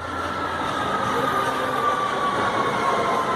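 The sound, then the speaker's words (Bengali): A metro train pulls into a station with a steady, loud rolling rumble and a faint high whine running through it, unbroken and without voices. “Arindam কবি Nazrul metro স্টেশনে দাঁড়িয়ে দূর থেকে দেখতে পাচ্ছে train ঢুকছে। বুকটা একবার থক করে উঠল ওর। ট্রেনটা কাছে এগিয়ে আসছে,”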